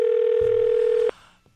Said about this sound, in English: So I'm going to try to get him on the phone. Okay, let's see if he's home.